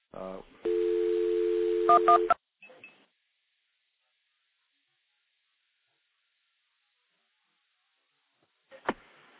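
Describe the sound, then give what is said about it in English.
Telephone dialing is routed through a stack of five or six phone trunks: a brief tone, then a steady tone lasting about two seconds, a few short tone pips, a long silence and one final short burst. “I'm going to actually dial a recording through the stack of about five or six trunks that I've got stacked up here.”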